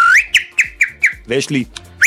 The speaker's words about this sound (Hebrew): יש לי כמה שיטות של שריקה,